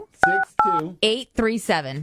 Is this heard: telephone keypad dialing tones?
yes